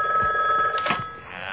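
A telephone rings with a bright, steady electronic trill that holds through the whole moment, swelling briefly louder partway through before settling back.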